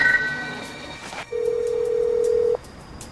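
A telephone ringback tone on a phone call sounds as one steady, mid-pitched beep lasting just over a second. Fainter, higher electronic tones come just before it.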